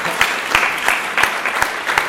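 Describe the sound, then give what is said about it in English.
Applause from an audience at an animation festival presentation, a soft bed of clapping marked by several sharper, louder individual claps at irregular intervals. “On va applaudir Andreas Ricadeux.”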